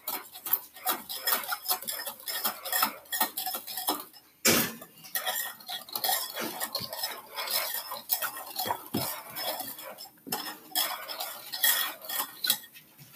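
A whisk beats chocolate chip cookie dough in a bowl with rapid, continuous scraping and clinking strokes. The rhythm stays busy and steady, with one brief pause, and no voices are heard.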